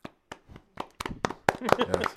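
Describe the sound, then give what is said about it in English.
Hands clapping as hosts welcome a new co-host, beginning with a few isolated sharp claps that quickly build into faster, denser clapping from a small group. “I had to start off that clap.”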